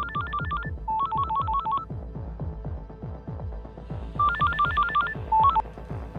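Telephone keypad tones as a number is dialed to place a call: quick runs of short, bright beeps in a few separate bursts, over a steady, rhythmic low throbbing pulse that continues throughout.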